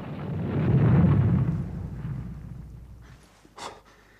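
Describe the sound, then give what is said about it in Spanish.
A bomb explosion: a deep, booming rumble swells and then fades away over a few seconds, followed by a short, sharp crack near the end. “Ha sido una bomba. Jesús, qué espanto.”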